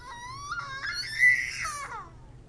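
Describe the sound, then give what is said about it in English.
A woman wails in one drawn-out, high, wavering cry that climbs, holds, then falls away near the end, fairly faint and alone without talk. “She began gently stroking Rose's forehead with the knife blade, and she began to wail.”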